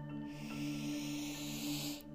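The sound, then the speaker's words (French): A slow, deep inhale during a guided meditation, a soft, airy hiss of breath lasting about two seconds over a quiet, steady low drone. “Inspirez profondément.”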